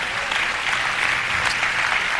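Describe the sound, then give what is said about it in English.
A church audience claps during a sermon, producing a dense, steady wash of applause. The clapping stays loud and even from start to finish, with no pauses or clear voices rising above it. “Clap your hands and praise his name.”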